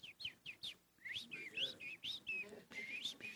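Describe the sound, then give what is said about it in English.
A person whistles an imitation of a robin's call: a few short, bright chirps, then longer warbling whistled phrases that slide up and down, heard alone without talk. “you might hear me do a robin”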